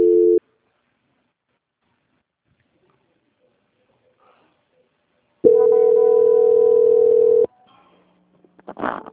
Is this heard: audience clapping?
no

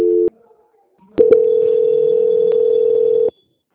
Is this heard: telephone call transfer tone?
yes

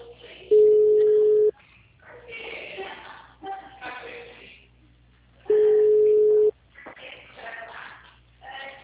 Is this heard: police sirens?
no

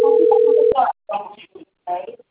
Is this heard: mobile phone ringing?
yes

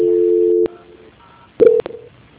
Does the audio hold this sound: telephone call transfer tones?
yes

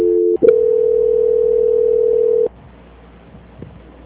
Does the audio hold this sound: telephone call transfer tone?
yes

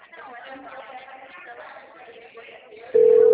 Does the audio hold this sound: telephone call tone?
yes

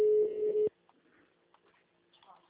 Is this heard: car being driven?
no

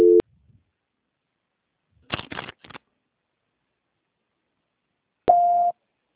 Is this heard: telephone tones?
yes

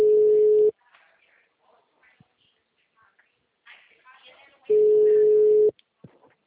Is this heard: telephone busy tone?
yes

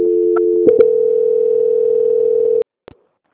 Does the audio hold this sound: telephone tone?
yes

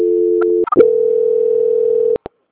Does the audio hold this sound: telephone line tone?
yes

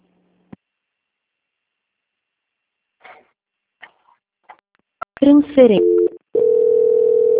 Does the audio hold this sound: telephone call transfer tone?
yes

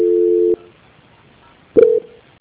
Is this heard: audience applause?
no

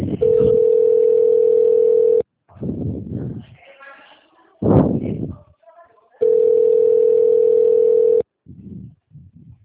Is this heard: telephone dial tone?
yes

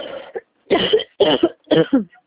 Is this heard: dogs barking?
no

